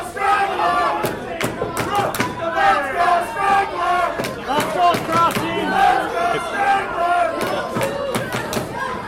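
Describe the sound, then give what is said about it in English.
Wrestling crowd cheering for the villain Strangler, loud surging shouts and chant-like waves of voices rising and falling repeatedly, with occasional thuds mixed in. “Strangler does not want to be cheered for. He's asking, what about Rock? It is odd that the bad guy's getting cheered for.”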